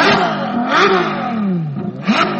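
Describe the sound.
Engine revving from a car built between 1994 and 1996 with a top speed of 315 km/h. The loud engine note climbs and drops a few times in quick surges, with no voices over it.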